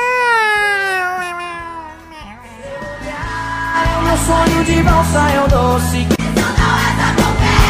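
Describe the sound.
A human voice imitates a cat, drawing out loud, wavering meows that slide downward. The meows are alone at first, then continue over loud music with a steady beat.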